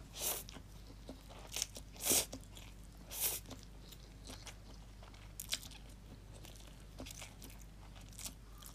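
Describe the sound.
Someone eats a dish partway through a meal, faint crunchy chewing and biting with several louder crisp bites standing out irregularly over quiet mouth sounds.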